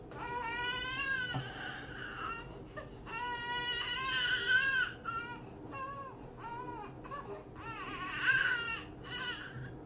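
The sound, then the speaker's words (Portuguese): A child cries in many high, wailing bursts with short breaths between them, the pitch bending up and down within each cry. The crying is loud and steady and carries on throughout. “essa é a hora que a criança chora e a mãe não ouve.”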